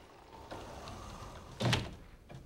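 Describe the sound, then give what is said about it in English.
A sliding door slid shut: a low rolling rumble over faint background noise ends in one short, solid thump, with a quieter knock just after. “slides the door shut”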